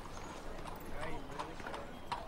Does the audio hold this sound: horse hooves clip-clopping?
yes

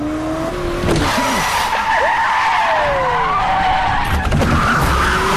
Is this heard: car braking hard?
yes

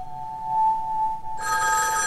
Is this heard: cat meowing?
no

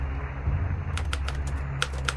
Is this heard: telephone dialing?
no

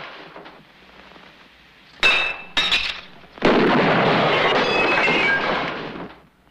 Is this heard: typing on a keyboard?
no

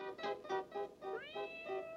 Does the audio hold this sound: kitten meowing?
yes

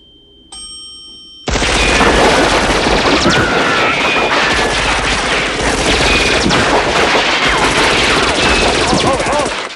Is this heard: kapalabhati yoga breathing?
no

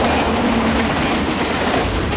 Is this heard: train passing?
yes

